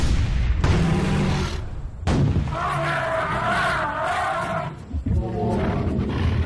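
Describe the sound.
A white elephant roars in defiance while soldiers fire guns at it, a loud, sustained, harsh bellowing with a tonal, trumpet-like stretch in the middle, continuing almost without break.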